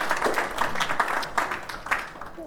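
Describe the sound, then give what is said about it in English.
Applause from an audience greeting two speakers on stage: fairly faint, irregular clapping with uneven bursts that continues throughout without pause. “So we've got up on stage Giles Morgan and Gary Link. Well, let's have a round of applause for these guys.”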